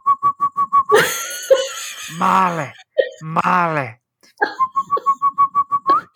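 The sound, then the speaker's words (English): A person whistles a quick run of short, evenly spaced notes, then breaks into groaning, wailing vocal sounds, then returns to another fast run of whistled notes. “And then he starts whistling. And they whistle like,”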